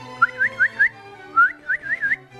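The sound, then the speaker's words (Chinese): A man whistles to wake a dog dozing under the eaves, giving two quick runs of bright, rising whistled notes separated by a short pause, clear and alone. “父亲开始吹着口哨，”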